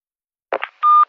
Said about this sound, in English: A message on a company answer phone.